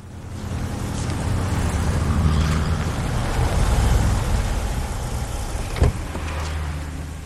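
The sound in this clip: A chauffeur-driven car pulls up outside a building, its engine and road noise forming a steady low rumble that swells slightly, with a single sharp knock near the end.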